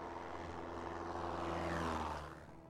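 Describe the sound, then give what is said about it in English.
A cargo plane flying overhead gives a steady, loud propeller-engine drone with a deep layered hum and broad rushing noise. It swells slightly toward the middle, then eases a little near the end, with no voices. “That might be the same plane. I thought their same plane was red. I think it's the same plane.”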